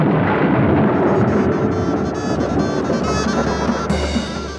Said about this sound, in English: And with that, and a clap of thunder,